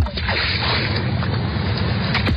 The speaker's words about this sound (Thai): เสียงคลื่นที่หาดทรายแก้วเข้าเครื่องแปลภาษาเขาคงจะบอกเราว่ามาเที่ยวที่นี่สิ